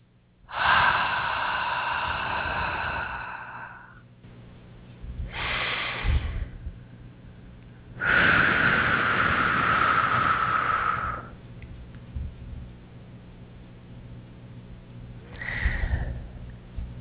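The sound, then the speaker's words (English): Slow, deep breathing during a guided breathing exercise, in through the nose and out through the mouth: a long airy inhale, then a long steady exhale, with shorter soft breaths between, over a low constant hum. “deep breath in through the nose and out through the mouth, please.”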